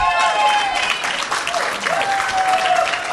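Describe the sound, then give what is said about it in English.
Audience applause breaks out during a live political interview after a question about running for mayor, a dense, steady clatter of many hands lasting the whole clip with some voices mixed in. “I'll take the applause as compliments”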